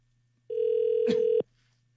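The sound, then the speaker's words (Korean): A telephone ringback tone sounds as a call is placed: one steady, mid-pitched electronic tone lasting just under a second, heard alone between short stretches of quiet. “신호 가고 있습니다.”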